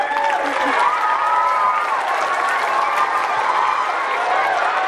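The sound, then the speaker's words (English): An audience claps for teachers, a steady, dense wash of applause mixed with crowd noise and some voices, holding at one loudness for about five seconds. “Clap for the teachers.”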